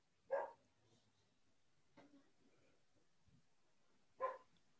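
A female dog barks faintly, with two sharp barks a few seconds apart and a softer yap between them, over a quiet background.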